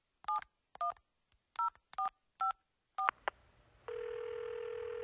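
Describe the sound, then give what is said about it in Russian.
Touch-tone telephone keypad being dialed to call the fire service emergency number: a series of short two-tone beeps in a steady rhythm, then a couple of clicks and a continuous steady line tone. “знала, что при пожаре нужно звонить 01, поэтому сразу бросилась к телефону”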